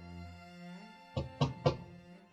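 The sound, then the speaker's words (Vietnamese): Three dull knocks on a door in quick succession, evenly spaced and moderately loud, sounding over a quiet, sustained musical drone. “Đúng 5 phút sau, bên ngoài có tiếng gõ cửa.”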